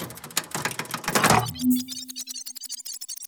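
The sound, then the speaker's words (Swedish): A time machine starts up with a noisy clattering burst, then settles into a steady low hum with a rapid rhythmic pulsing above it. “Vi börjar med att dra igång tidsmaskinen.”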